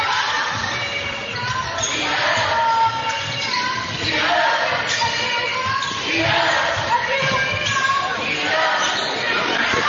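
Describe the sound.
Basketball bounces and dribbles during a women's college game between Kilgore and the Lady Rangers: many rhythmic thumps on the court under an excited commentator's voice, with crowd noise and sneaker squeaks throughout.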